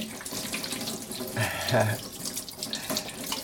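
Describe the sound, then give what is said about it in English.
Hands being washed under a running tap, a steady splashing stream of water into a sink that swells briefly in the middle before continuing evenly. “I'm going to wash my hands here.”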